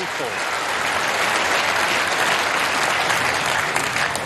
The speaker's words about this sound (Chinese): 在克鲁斯堡的看台上又响起了专属吴一泽的庆祝的声音，所有人都在高呼着他的姓氏。